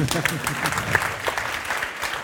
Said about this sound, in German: Ihr dürft auch klatschen.